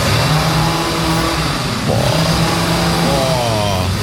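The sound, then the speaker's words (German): A chainsaw revs loudly while trees are pruned, its mid-pitched motor droning without a break. The engine note wavers and shifts partway through. “bei mir werden Bäume verschnitten. Alle 30 Sekunden heult er die Motorsäge auf.”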